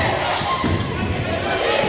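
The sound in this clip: Basketball dribbled on a court during a Roman Catholic school game, with a player briefly fumbling the dribble before regaining it; a few muffled thumps of the bounce sit under steady crowd noise and hum.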